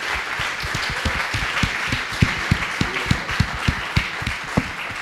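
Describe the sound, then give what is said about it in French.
Applause at a praise gathering: many hands clapping in a steady, rhythmic beat, with regular sharp accents over a continuous dense patter. “Acclamons pour David. Let's clap for David.”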